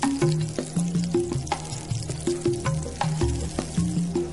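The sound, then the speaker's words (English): Matsutake mushroom slices frying in hot oil, a steady crackling sizzle with scattered sharp pops, over a background melody. “The slices are dried rapidly in hot oil and the fragrance is released.”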